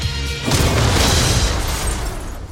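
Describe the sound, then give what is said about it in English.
A sci-fi photon blast: a loud, sustained booming energy burst erupts after a brief low hum, roaring across a wide band and easing only slightly as it holds to the end. “That's a photon blast.”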